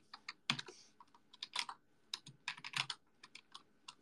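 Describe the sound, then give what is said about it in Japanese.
Keys clacking on a computer keyboard as someone types a chat message, with many quick, irregular clicks, some bunched into short bursts. The sound is faint and heard alone. “喋りながら文章打つって難しいんだな。”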